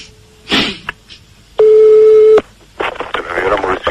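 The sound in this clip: A telephone line tone sounds while a call is being placed: one steady, clear tone lasting under a second, set between short bursts of noise, with more noisy, talk-like sound after it.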